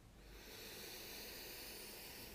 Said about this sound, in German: Und jetzt nimm einmal einen tiefen Atemzug voller Vertrauen für deinen Weg. Tief einatmen durch die Nase